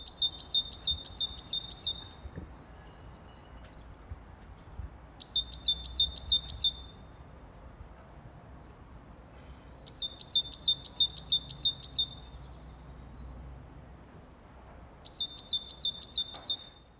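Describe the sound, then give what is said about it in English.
Bird song in a garden from an unidentified species: four bursts of quick, high-pitched chirping phrases, each about two seconds long, separated by quieter gaps with a soft outdoor background hum. “I have no idea what bird that is.”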